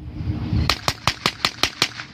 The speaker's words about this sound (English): That's definitely not a cannon. It's like a propane machine gun or something.